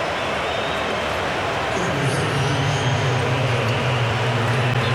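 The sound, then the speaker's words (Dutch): A stadium crowd roars as Lukaku comes on during the Spain vs Belgium World Cup 2026 match. The dense, continuous roar swells slightly partway through and stays loud to the end. “En Lukaku komt op en dat heeft het stadion geweten.”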